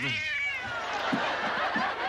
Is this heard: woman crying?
no

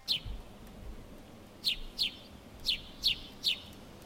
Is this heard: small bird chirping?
yes

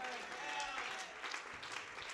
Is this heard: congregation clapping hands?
yes

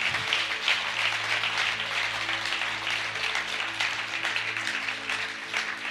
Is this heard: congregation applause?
yes

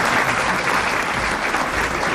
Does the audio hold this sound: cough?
no

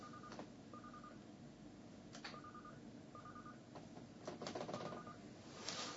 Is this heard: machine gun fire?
no

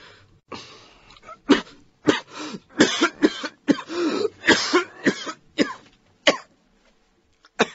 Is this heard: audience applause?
no

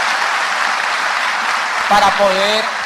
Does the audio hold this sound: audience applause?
yes

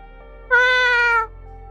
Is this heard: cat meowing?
yes

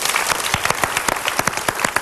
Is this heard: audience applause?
yes

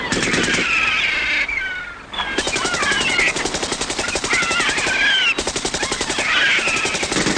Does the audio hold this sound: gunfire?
yes

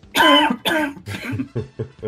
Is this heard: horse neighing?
no

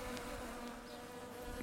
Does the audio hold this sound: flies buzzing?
yes

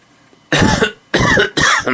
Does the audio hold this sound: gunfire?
no

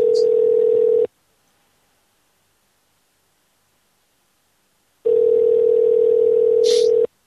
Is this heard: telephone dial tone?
yes

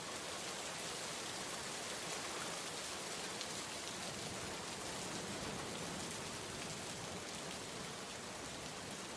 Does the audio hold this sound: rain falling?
yes

